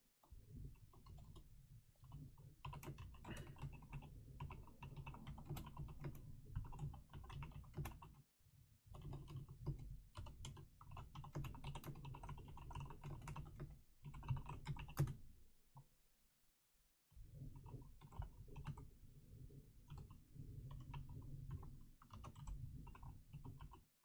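Faint, continuous typing on a computer keyboard, many rapid key clicks in uneven bursts with a couple of brief pauses.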